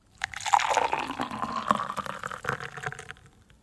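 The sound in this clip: Coffee being poured, a steady liquid splashing and trickling that runs for several seconds, fairly even in level, with no voices.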